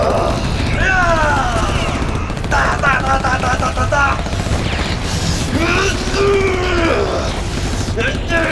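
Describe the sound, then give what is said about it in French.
Laser weapons firing in a cartoon robot battle: quick zapping sweeps, many short sliding tones rising and falling, over a dense, loud wash of effects and noise. “La vache, ils ont des lasers! Oui, mais moi aussi j'ai des armes.”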